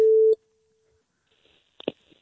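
A telephone gives one short, loud, pure steady tone that cuts off after about a third of a second. Near silence follows, then a faint, brief sound near the end.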